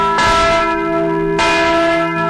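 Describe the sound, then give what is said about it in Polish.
Church bells ring loudly and alone, with two strong strikes whose rich, humming tones sustain and overlap without fading between them. “Jam jest twoim słuchem, słyszącym dzwony wolności, które teraz posiadam.”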